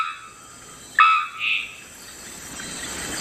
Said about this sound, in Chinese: 肉锤中伞鸟的鸣叫声与众不同，这也是这种鸟名字的由来。它们的叫声就像是敲击金属发出的声音，在1000米外都能听得到。